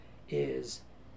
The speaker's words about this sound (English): you can incorporate the sound of a cat crying in the background